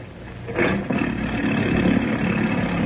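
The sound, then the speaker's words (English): The motorboat engine of the Mary Ann is started. A sudden burst of engine noise catches and settles into a steady, mid-pitched running drone that stays fairly loud to the end. “Why not take this boat, the Mary Ann? She's in ship-shape condition and just as comfortable. Very well. The Mary Ann it is. Give the motor a turn, will you, Denny?”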